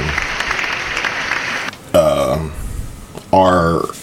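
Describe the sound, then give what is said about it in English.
Brief applause for a wife's birthday: about a second and a half of dense clapping that cuts off abruptly, followed by two short voiced vocal sounds. “Happy birthday. Round of applause.”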